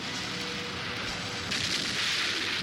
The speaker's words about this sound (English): The blast-off was perfect.